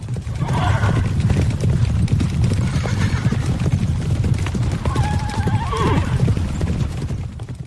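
Hooves of a horse-drawn carriage clip-clop in a dense, loud patter as it sets off, with a horse neighing midway through over the steady rumble.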